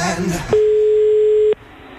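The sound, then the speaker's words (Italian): A phone call's ringing tone: one steady, mid-pitched beep about a second long, clean and level, following a brief burst of voice and dropping off into quiet. “Per iniziare chiamerò io Wender, che è a casa tutto fatto merda.”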